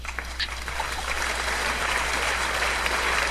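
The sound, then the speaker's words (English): Rapid hand clapping from a single very fast clapper, a dense, steady stream of claps blurring into a continuous crackle at even loudness throughout. “721 claps a minute.”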